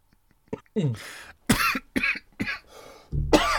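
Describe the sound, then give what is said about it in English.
Someone choking on coffee breaks into a string of harsh, raspy coughs and throat clearing. The bursts come in an irregular series with short silent gaps, and the last one is loud and drawn out. “Excuse me. Choking on coffee here.”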